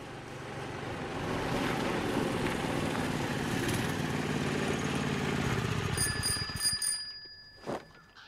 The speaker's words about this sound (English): arrives on a tiny, wobbly scooter.